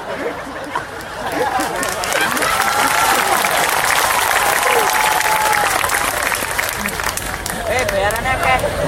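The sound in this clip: Audience applause at a comedy-style talk, clapping that swells after a second into dense, steady crackling, with chatter and some laughter mixed in, fading slightly near the end.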